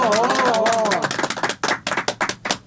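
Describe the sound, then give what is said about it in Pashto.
Audience clapping at a Pashto poetry gathering: a voice is heard first, then scattered, uneven hand claps from a small crowd, sharp and irregular, thinning out toward the end. “لاسونه ورته وپړقوي.”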